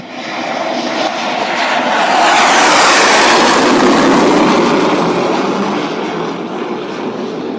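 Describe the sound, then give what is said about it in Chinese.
An F-16 fighter jet takes off from a highway during a military exercise, its engine at full thrust. A loud jet roar swells to a peak midway, then eases slightly while staying strong, with no voices. “接着第二架 F-16、两架幻影2000和两架 IDF 战机依次在高速公路上起飞。”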